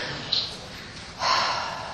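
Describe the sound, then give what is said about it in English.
People take deep breaths together: a continuous airy rush of breath noise with a brief sharp puff early on, then a stronger swelling whoosh that gradually fades. “Take a few deep breaths.”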